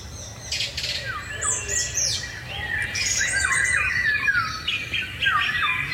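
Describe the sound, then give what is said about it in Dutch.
Song thrush singing in a garden in the evening, delivering varied whistled and chirping phrases one after another over a faint low background noise. “Maar de zanglijster bij Liz Stolp in de tuin lijkt zich daar weinig van aan te trekken. Die zingt nog steeds iedere avond. Vanaf dezelfde tak.”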